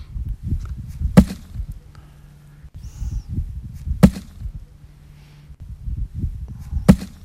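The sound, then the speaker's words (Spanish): Grapes drop into a basket during the grape harvest. Three sharp, dry impacts stand out at even intervals over a soft, continuous rustling. “Son sonidos de vendimia. Vamos a escuchar, por ejemplo, como nos decía el cómo cae esa uva al cesto.”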